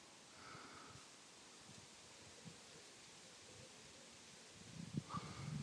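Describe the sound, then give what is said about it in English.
Faint, steady rustle of wind moving through the leaves of a sycamore tree, a soft hiss that swells slightly louder near the end. “wind blowing the leaves in this sycamore tree.”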